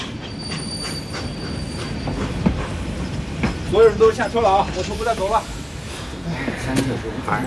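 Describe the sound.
A train rolling along its rails on the way to Oku: a continuous low rumble and hiss, with high, wavering wheel squeals rising out of the middle stretch and fading again.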